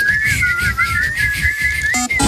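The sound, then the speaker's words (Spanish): Children whistling as they leave: a wavering, tuneful high tone held almost continuously over a low rumbling background. “Os vais silbando.”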